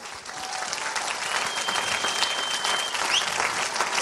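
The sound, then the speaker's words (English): Audience applause welcoming guests onto the stage at a church gathering, a dense sustained patter of many hands clapping at a steady, fairly loud level from start to finish. “So can you give them a massive welcome? They're just going to come and say hi.”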